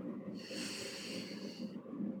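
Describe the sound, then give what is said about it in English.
A single deep breath drawn in, a steady airy hiss lasting about one and a half seconds, fairly soft and with no talking over it. “And exhale through the mouth. One more time, deep breath in.”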